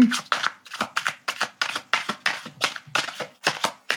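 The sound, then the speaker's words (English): Tarot cards being shuffled and drawn: many quick, crisp riffles and slaps come in a brisk, regular rhythm, each a short papery burst. “I feel like it's a great time to pull another card.”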